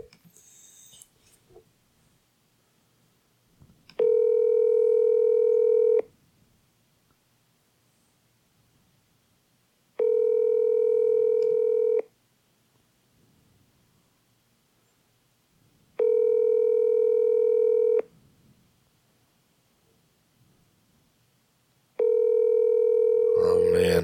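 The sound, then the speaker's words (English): Ringback tone of an outgoing telephone call: four steady, buzzing two-second rings, each separated by about four seconds of near silence with faint rustling. “We got a ring.”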